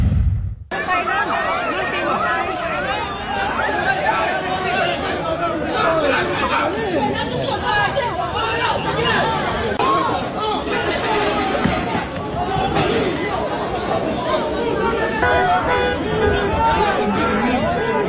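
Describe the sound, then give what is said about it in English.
Crowd chaos in shops at the AP Swatch Royal Pop watch launch: a dense, loud babble of many voices talking and shouting at once, holding steady throughout. “That's actually the sound of chaos from overseas locations as this was not isolated to the Singapore experience, incidentally. This was the scene in overseas shops.”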